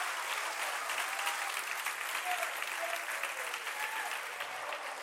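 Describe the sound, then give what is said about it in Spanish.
An audience applauds during a Sunday church service, with steady, dense clapping that stays loud and even throughout. “Den un aplauso al Señor.”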